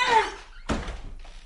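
A door is shut behind a man who has just been driven out of the house. A short, thin creak comes first, then one dull, solid thud, followed by faint rustling.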